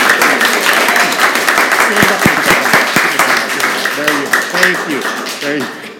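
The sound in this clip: Applause from a classroom of students acting as a studio audience for a class radio show: many hands clap in a dense, rapid patter throughout, and a voice talks over the final seconds as the clapping thins.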